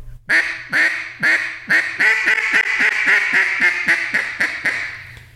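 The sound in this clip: A single-reed duck call is blown in a quick series of many loud, nasal quacks. Each quack has a raspy buzz, and toward the middle the quacks run together into a steady chatter before separating again.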